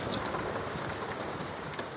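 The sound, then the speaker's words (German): Light, cold rain falls steadily on the small whaling port of Lerwick, a soft, continuous hiss with no distinct drops, voices or other sounds. “Ein kalter, leichter Regen fällt auf die kleine Stadt.”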